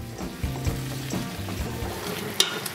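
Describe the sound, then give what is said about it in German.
Bacon, potatoes and leek fry in a pan with a steady, dense sizzle, broken by occasional low knocks and scrapes from stirring, with no talk over it. “Der Speck wird ausgelassen, dann kommt das Gemüse ins Spiel.”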